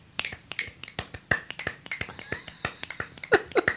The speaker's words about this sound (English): I can do the Lone Ranger and snaps.